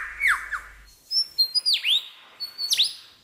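Bird song in a forest, mimicking the calls of other species: bright whistled notes and sharp downward-sweeping chirps come in several quick bursts separated by short pauses, clear and fairly loud against a quiet background.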